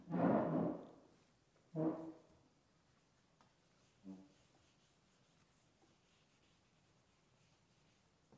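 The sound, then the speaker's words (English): Hand-drawing strokes, made while a lesson is explained, come as three scratchy rubbing bursts. The first is longest and loudest, the next is shorter, and the third is faint and brief. Near-silence follows. “I'm going to draw a little bit so we can understand.”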